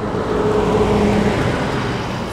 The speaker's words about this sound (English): So we point our car down I-75 towards our next stop.